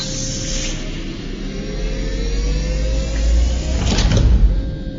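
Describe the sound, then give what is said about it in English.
An airlock inner hatch opens in a sci-fi drama: a steady mechanical hiss and hum with a slow gliding tone, then a louder whooshing surge and rumble near the end. “Airlock pressure is currently equalized. The airlock is empty. Open the inner hatch.”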